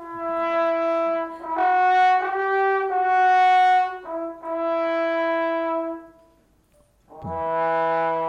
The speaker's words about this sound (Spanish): también está el más pequeño, intermedio, que es de los bajos, el trombón. Y suena más o menos así.